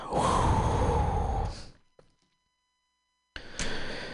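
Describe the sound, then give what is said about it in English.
A long, deep breath, loud and breathy, drawn out for over a second before fading to near-silence; after a pause another breathy sound begins. “I'm going to take a deep breath and just center myself”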